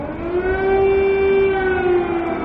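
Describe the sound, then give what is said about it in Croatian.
Air raid siren sounding in Kyiv during the start of an invasion, a loud, steady wailing tone with strong harmonics that holds its pitch throughout, with no voices. “Sirene za vazdušni napad su se oglasile u glavnom gradu Kijevu”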